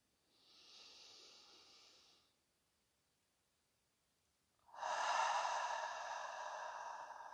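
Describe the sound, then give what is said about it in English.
Slow breathing during a guided meditation: a faint, airy inhale, a few seconds of near silence, then a louder, breathy exhale that carries on to the end. “Breathe.”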